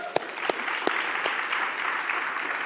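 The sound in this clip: An audience applauds to welcome a visiting friend at a church gathering: steady, dense clapping at moderate loudness, with a few sharper individual claps standing out early.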